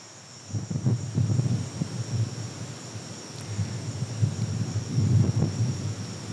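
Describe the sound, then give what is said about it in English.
Strong southeast monsoon wind gusts and rumbles in low buffeting surges at night beneath a steady, high-pitched drone of cicadas that holds unbroken through the whole clip. “This is the sound of our monsoon wind, the southeast monsoon that blows really strongly this time of year, and the cicadas at night.”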